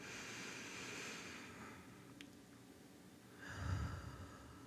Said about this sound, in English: And just speaking personally, I think it's important to just slow down and take a breath. So just take a little breath with me.